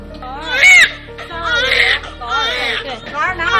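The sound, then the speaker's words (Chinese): A newborn baby boy, the third of triplets, cries loudly just after birth, giving high, wavering wails in several long bursts over a steady low hum. “出生后马上就发出响亮的啼哭。”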